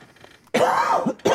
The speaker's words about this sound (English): I had to cough.